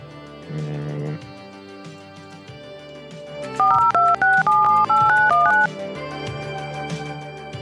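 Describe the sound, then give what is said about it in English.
A phone number is dialed on a keypad as a rapid run of clear, loud two-tone beeps, each short and evenly spaced. A softer tonal hum sits before and after. “Call that one then? Yeah, call this one.”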